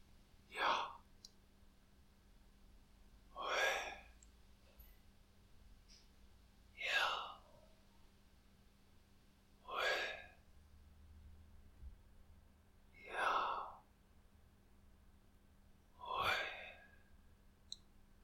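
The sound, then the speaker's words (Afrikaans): Slow, deliberate breathing during a guided prayer exercise, with six soft, airy breaths evenly spaced about three seconds apart. Each one swells and fades over a faint steady hum. “So kom ons sit net so rukkie saam en haal asem saam en sê God se naam”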